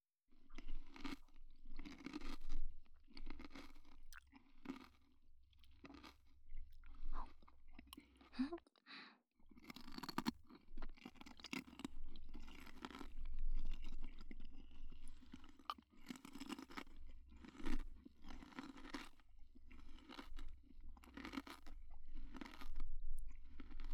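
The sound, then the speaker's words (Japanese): Crunchy apple soaked in salt water being chewed: many crisp, wet crunches and softer squishy bites in a steady, uneven rhythm that continues throughout. “中はシャクシャクだね。塩水につけてたから、少しだけ甘じょっぱくなってるかな。お弁当に入ってるリンゴみたいな味がして、ちょっと懐かしいかも。”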